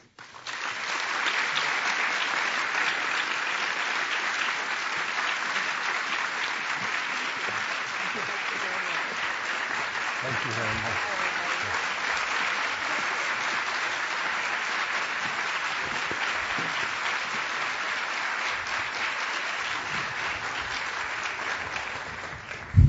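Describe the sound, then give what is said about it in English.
Long, sustained applause welcomes Madeleine Albright and a retired attorney onstage: a loud, even wash of many hands that holds steady for over twenty seconds. “And I think that applause was saying several things to you.”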